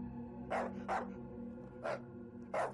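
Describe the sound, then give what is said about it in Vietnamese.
A dog barks four times in short, sharp bursts over a steady low hum, with uneven gaps between the barks. “Đột nhiên con Tuyền từ bên ngoài chạy vào sủa lên.”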